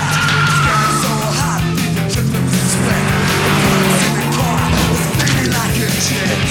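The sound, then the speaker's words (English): Engine roar and squealing tyres from a van skidding round a corner during a car chase, a loud, continuous rumble with screeching tyres throughout. “The van skids round a corner with Jean close behind.”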